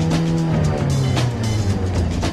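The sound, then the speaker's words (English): Car engine roaring steadily as a hill-climbing vehicle struggles up a steep slope, wheels slipping and not in gear, its revs held high in a loud, continuous droning note with no pause. “He's trying to get those engine revs up. So he's not in gear now, is he?”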